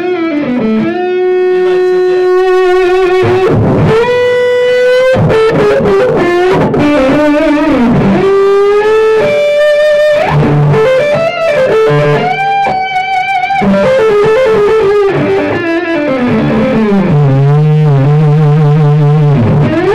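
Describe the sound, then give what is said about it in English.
An electric guitar is played on the neck pickup with the Range Master pedal switched off. It carries a loud, sustaining lead line of bent and sliding notes, with wide vibrato on the held tones and no voices. “Turn off the Range Master. No, keep the neck pickup. I want to hear it.”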